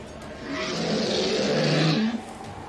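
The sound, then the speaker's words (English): A dragon lets out a single deep, rumbling roar that swells for about two seconds and then cuts off abruptly. “And the dragon roars again.”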